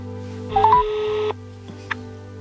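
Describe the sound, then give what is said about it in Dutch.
Telephone dialing tones as a number is entered to call a neighbour: a loud, steady burst of tones lasting under a second, then a single short, fainter beep, with no talk. “Ik ga even een van de buren bellen”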